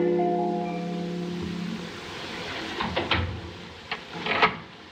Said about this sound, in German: Jetzt verriegelt auch Madame die Tür.